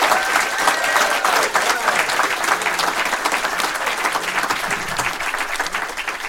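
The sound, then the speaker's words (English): A warm round of applause from an audience for a guest: loud, dense clapping from many people that carries on steadily and eases slightly near the end, with crowd noise mixed in. “But let's hear it first of all. Very warm round of applause for”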